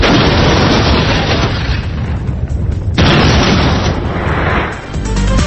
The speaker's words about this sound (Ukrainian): 60 років після першого ядерного випробування в Радянському Союзі. Автомат включен. Останні секунди.